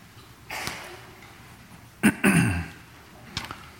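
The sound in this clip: A preacher clears his throat several times during a church service, with rough, gravelly bursts separated by brief pauses.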